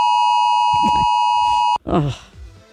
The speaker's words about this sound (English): Oh, that was that 2 o'clock alarm thing.